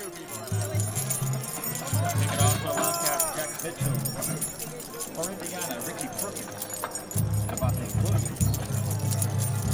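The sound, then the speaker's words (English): Students jingle their keys in the bleachers at the opening kickoff of a college football game: a dense, shimmering metallic rattle that runs throughout, over a loud roar of crowd voices and low booming sound. “That's the sound of students jingling their keys during a kickoff.”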